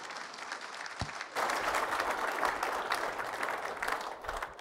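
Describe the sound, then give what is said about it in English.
Congregation applause welcoming a preacher to the stage at a Sunday morning church service, starting after a single soft thump and swelling into steady, sustained clapping that continues evenly to the end. “If you would, give him a hand as he comes up. A welcome.”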